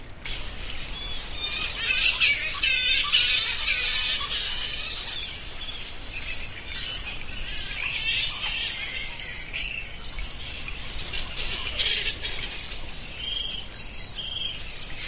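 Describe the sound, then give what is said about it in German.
Thousands of bats hanging from a cave ceiling fill the air with dense, high-pitched chirps and squeaks, a continuous shrill chatter that stays fairly even and loud throughout. “Hört mal, so klingen viele tausende Fledermäuse, die an einer Decke hängen und sich darauf vorbereiten, zu ihrem Abendessen aus der Höhle zu fliegen.”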